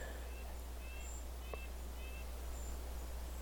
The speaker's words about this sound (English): I hear in the distance a red-breasted nuthatch too.